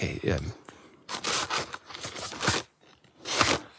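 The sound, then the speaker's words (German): Handling of a cardboard box about the size of a DVD box with plastic-wrapped contents inside: a few bursts of bright crinkling, rustling and scraping, separated by short pauses. “Okay, es klingt ein bisschen nach etwas, was in Plastik eingepackt ist.”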